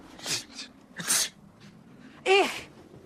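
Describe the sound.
A person sneezes in a few short, breathy bursts at a low level with no other sound. The last burst is the loudest and has a voiced, tonal edge.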